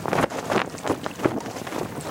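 Gusty wind blows across the microphone with rushing, buffeting bursts, as protest posters flap outdoors at a North Sea fishing cutter laid up in a shipyard; the noise swells and drops unevenly throughout.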